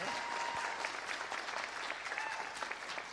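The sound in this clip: Audience applause welcoming the speakers, a dense, even wash of clapping from a crowd that holds steady from start to finish.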